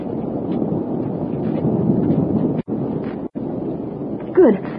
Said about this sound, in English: Good heavens! Why, it's a column of fire.